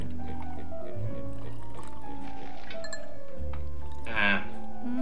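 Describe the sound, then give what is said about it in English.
Wine is poured into a tomato sauce with sausage and meatballs: a soft liquid pour under a sustained tonal hum, with a brighter splash near the end. “You got to do a boil, you shove in all your sausage and your meatballs. Huh? Add a little bit of wine.”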